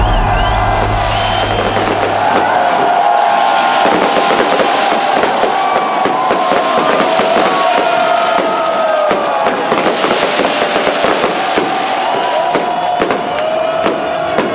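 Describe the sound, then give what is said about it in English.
A huge festival crowd at Tomorrowland 2012 roars as Hardwell takes the stage, a dense, loud, continuous wash of cheering shot through with sharp crackling bursts like fireworks, with a low hum dropping away early on. “Please roar and welcome to the stage. Hardwell.”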